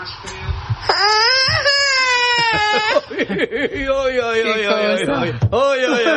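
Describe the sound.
A toddler about a year and a half old vocalizes in high, drawn-out whiny cries and babbling exclamations, with rising and falling pitch and brief pauses between bursts.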